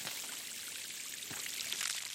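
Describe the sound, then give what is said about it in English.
Water sprinkled onto freshly poured dirt makes a soft, steady hiss of pouring and trickling that runs unbroken and faint for about two seconds. “Now, hold your feet still while I pour some fresh dirt on them. Nice. And a sprinkle of water.”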